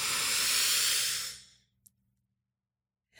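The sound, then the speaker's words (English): A long, deep breath drawn in through the nose, a loud airy hiss that tapers off over about a second and a half, followed by quiet, a tiny click, and the start of another breath. “So we're going to breathe in through the nose.”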